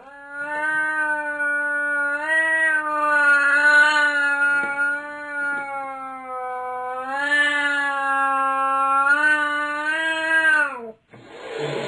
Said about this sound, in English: That's the sound of a cat yowling.